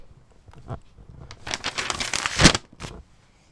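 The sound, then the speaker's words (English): An envelope is ripped open: papery crinkling and tearing comes in a few bursts, grows louder to a sharp rip, then ends with one short final tear. “That means it's done if you can rip open up that envelope and read us the moral of today's show.”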